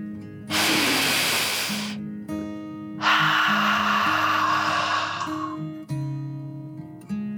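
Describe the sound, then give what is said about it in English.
A slow, deep breath in and out, voiced as a dragon's breath in a relaxing children's bedtime story: two long, loud, airy rushes separated by a short gap, over soft sustained music. “She took another deep dragon breath in and out.”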